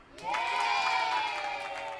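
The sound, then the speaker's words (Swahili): A group claps for themselves during a dance lesson, giving a bright, steady patter of applause. Sustained voices ring out loudly over the clapping throughout. “Jipigie makofi.”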